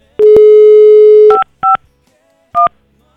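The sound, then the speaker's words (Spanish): Telephone keypad tones dial a number for a call to Veracruz: a long steady tone followed by three short, loud dual-tone beeps with brief gaps between them, and no speech. “Estamos marcando hasta Veracruz. Vamos a marcarle hasta Veracruz.”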